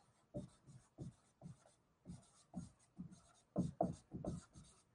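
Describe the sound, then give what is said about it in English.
A teacher writes quickly, making many short, faint, scratchy strokes in irregular bursts separated by brief pauses. “Actually, let me write really quick.”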